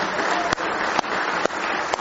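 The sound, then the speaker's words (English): An audience at a church service claps in praise, producing a dense, steady wash of applause with four sharper accents falling at a regular beat. “Go ahead and give the Lord one good hand clap of praise this morning.”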